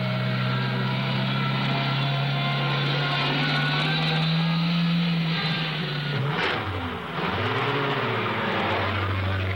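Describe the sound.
Car engine droning steadily while a car drives around an abandoned car; a loud, even hum whose pitch dips and then climbs again near the end.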